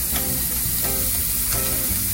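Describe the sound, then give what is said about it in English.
Chopped spinach sizzling and frying in a pan, a steady, bright hiss that runs the whole time with a few faint clicks and stirring scrapes, and no voices. “now I'm gonna add in my spinach. I chopped it up so it cooks a little faster.”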